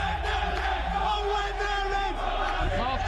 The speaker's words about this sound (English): Newsbeat was with fans in a stadium in Turkey.